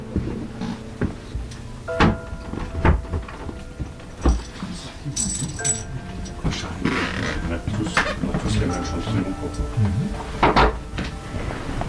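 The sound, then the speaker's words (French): Four funeral workers close and lift a coffin, making clunks, mechanical ratcheting and scraping knocks in irregular bursts, with talk in between. “Donc là, il y a les 4 employés des pompes funèbres générales qui se mettent autour du cercueil pour le fermer et pour le prendre.”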